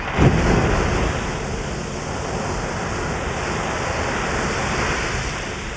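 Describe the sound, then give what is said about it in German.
A hot-water geyser erupts on an Icelandic high-temperature geothermal field, flinging its fountain up to 20 meters. A steady, loud rushing hiss and roar lasts throughout, with a slight surge near the start and no voices. “Alle 5 Minuten schleudert sie eine heiße Wasserfontäne bis zu 20 Meter in die Luft.”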